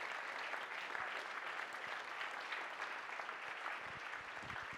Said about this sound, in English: Let's just give them a hand and say, welcome home.